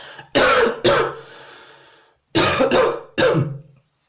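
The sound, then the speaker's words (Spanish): A person deliberately coughs, producing a few harsh, loud coughing bursts in two clusters separated by a short pause, with no talking around them. “Ahora voy con una tos y tal.”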